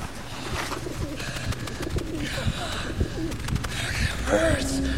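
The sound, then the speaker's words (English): Pigeon calls and bird sounds as a pigeon flies through a fenced corridor, a busy stream of low murmuring tones and soft noise that carries on steadily throughout. “A pigeon flies into the beam of his flashlight.”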